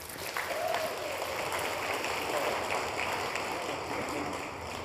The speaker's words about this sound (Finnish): Vielä kerran aplodit heille.